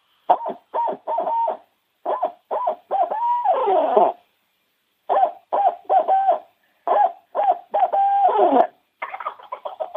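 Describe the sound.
Turkey yelps made on a hand call, with the hands opened up: many short, loud, hooting notes in several quick runs separated by brief pauses, with no voices.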